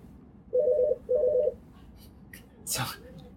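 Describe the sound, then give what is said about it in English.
Telephone keypad dialing tones on a call-in line: two quick bursts of short, clear beeps over a low background hum, followed by a brief sharp clunk. “Somebody's dialing there. Somebody's got a call.”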